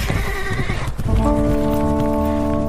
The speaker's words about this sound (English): The Normans ran for their horses to give pursuit. As the two men galloped off into the safety of the trees